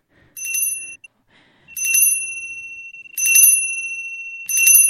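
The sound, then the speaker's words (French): A small bell rings four times in bright, high-pitched chimes with sustained shimmering overtones, each ring clear and fairly loud, spaced by short pauses with no talk. “on va bientôt commencer par une petite clochette”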